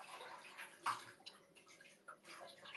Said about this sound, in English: And then, I have to wash my face.